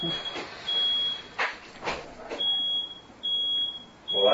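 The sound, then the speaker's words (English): A quiet smoke alarm sounds a thin, high-pitched beeping tone in several stretches of uneven length, steady in pitch, with people talking over and between the tones. “Ooh, smoke alarm. Yeah. That's a pretty quiet smoke alarm, honestly.”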